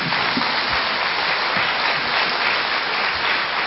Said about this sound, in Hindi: आप सब एक बार तालियों के साथ अतिथियों का अभिनंदन कर लें।